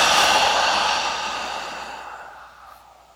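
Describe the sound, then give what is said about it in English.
A deep, slow breath during a guided breathing meditation: a long airy rush that starts strong and gradually fades over a few seconds, heard alone. “And on that, I'm inhaling.”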